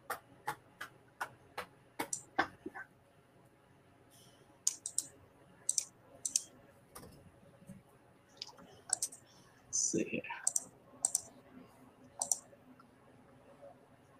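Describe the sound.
Computer mouse clicks and keyboard typing while cutting and pasting text: many sharp, faint clicks, first in a quick regular run and then in irregular clusters, with brief gaps between groups.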